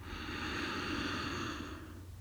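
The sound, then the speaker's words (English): A single sounded in-breath drawn through the nose with a light contraction at the back of the throat, giving a soft, steady, airy hiss that holds for under two seconds, then fades out. “To find this sounded breath, with a very light contraction at the back of the throat, start to breathe in through the nose”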